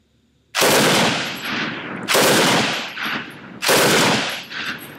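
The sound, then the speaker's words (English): Three loud bursts of full-auto machine-gun fire from an open-bolt gun fed by a 20-round box magazine, each burst a rapid rattle with a decaying tail before the next. “All right, I can't quite pull off single shots. The trigger on this is, well, it's firing from an open bolt, so we have kind of an awkward, or kind of an unusual, it's not awkward, kind of an unusual full auto trigger.”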